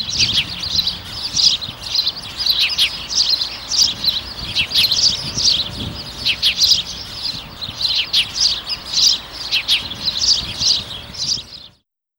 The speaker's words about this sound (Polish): Wróbel.